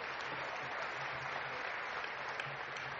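A church audience applauds the praise team with faint, dense, steady clapping that continues evenly throughout.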